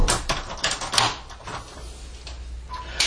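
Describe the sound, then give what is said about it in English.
A door is shut and locked, giving a few fairly soft clunks and sharp clicks with quiet rustling between them. “as soon as I shut this door and lock it”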